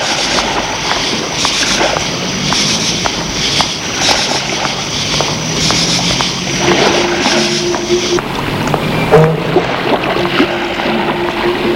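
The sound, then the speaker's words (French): Water washing and sloshing with scattered, rattling metallic clinks of chains, a steady, fairly loud wash of noise throughout with no voices. “Il entend le bruit de l'eau et le bruit des chaînes.”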